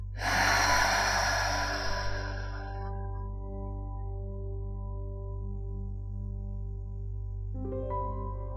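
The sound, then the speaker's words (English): A single long, deep breath during a guided meditation, an airy rushing sound that swells and then fades over a few seconds above a soft, sustained low drone that continues after the breath. “We'll begin by taking a deep breath together, in through the nose and out through the mouth. Breathe in. Hold and breathe out.”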